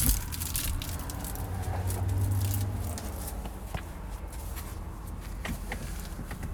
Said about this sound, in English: I hear the rustle of leaves underneath me. I hear the rustle of leaves all around me. I hear my brother going through the leaves behind me to my south.